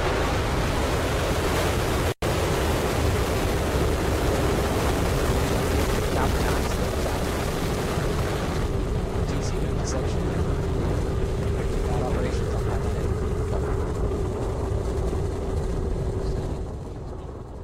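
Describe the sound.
A SpaceX rocket launch plays from a broadcast as a broad, steady rushing roar with deep rumble that fills the whole stretch, broken by one brief dropout near the start and easing off slightly at the very end.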